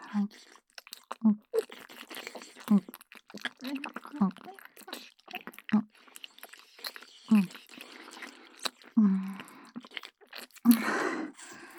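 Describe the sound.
Crunchy licking and chewing mouth sounds: many wet clicks and crunches in an irregular rhythm, some louder than others, running steadily throughout.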